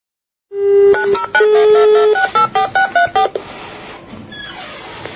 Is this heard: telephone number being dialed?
yes